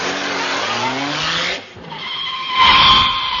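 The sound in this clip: A car drives off with its tyres skidding: the engine revs rise in pitch, dip briefly, then a loud, sustained tyre screech swells toward the end.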